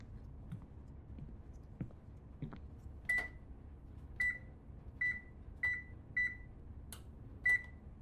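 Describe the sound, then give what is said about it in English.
A kitchen oven's controls being reset: a few soft button clicks, then six short, high electronic beeps at uneven intervals, faint over a low background hum. “After I felt like I had inspected thoroughly, I walked to the kitchen and reset the oven.”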